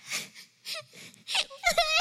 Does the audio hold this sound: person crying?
yes